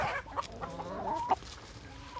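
Clucking of a laying hen at an animal sanctuary farm: a few soft, throaty clucks with one sharper, louder cluck near the end, over a quiet background.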